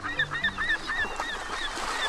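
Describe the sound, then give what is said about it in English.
Gulls call over an ocean beach in late August, with many quick, high, squawking cries repeating in a loose rhythm over a steady background hiss. “Gulls jabber overhead.”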